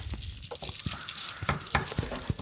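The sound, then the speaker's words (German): Tofu with turmeric and black salt sizzles in a frying pan, a faint, steady crackling hiss broken by scattered small pops. “Es muss einfach mal ein bisschen brutzeln hier.”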